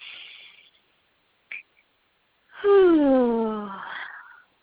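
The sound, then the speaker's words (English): A deep, natural integration breath at the end of a breathing exercise: a soft airy inhale, a small click, then a long voiced sighing exhale that slides downward in pitch and trails off. “one last time, and a nice natural integration breath.”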